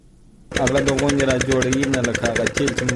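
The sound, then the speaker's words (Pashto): A diesel generator drives a pump irrigating a four-jerib wheat field in Kandahar's Dand district during drought. Its loud, steady, rapid chugging starts abruptly after half a second and runs on without pause. “عزت الله د کندهار په ډن ولسوالۍ کې خپل څلور جریبه د غنمو کښت د جنراتور په وسیله اوبه کوي”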